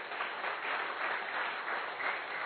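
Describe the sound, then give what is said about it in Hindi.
Loud, dense audience applause at a motivational gathering. It runs steady and continuous from start to end with no voices over it. “Triple R मिला तो उसकी निशानी है एक बार जोरदार तालियां बजाए।”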